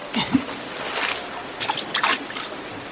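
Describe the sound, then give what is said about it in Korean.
A zookeeper throws frozen fish into water, making a few soft splashes and light trickling sounds as the pieces sink. “사육사가 다시 냉동 생선을 던집니다. 인간들의 지폐뭉치처럼 생긴 생선 토막이 물밑으로 가라앉습니다.”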